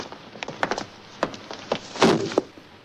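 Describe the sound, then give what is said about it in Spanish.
A police officer's foot stomps on and crushes a lizard: a series of light, woody knocks and taps, followed by a heavier, broader thud near the end. “Un policía lo aplasta de un pisotón.”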